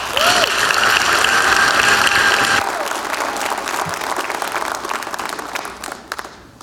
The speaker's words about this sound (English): please put your hands together as we welcome Reverend Jimmy Bratcher.